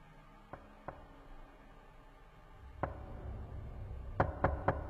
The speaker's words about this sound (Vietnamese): Đóng cửa lại, đang định quay vào, thì một lần nữa tiếng gõ cửa lại vang lên.